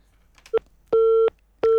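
A telephone busy signal sounds on a phone-in line with connection trouble: a brief blip, then steady, even-pitched tones that switch on and off in a regular rhythm, fairly loud, with no voices.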